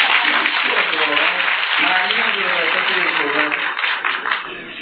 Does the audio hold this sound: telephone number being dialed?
no